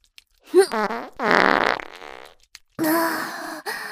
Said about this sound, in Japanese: お姉ちゃんのおならの匂い、そんなに好きだった？そっか。じゃあ、もう一発。